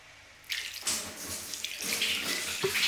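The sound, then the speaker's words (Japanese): Warm water poured over a person during a wash gushes and splashes steadily, starting abruptly after a brief quiet moment and continuing at an even, moderately loud level to the end, with no talking. “それじゃお湯かけますね。”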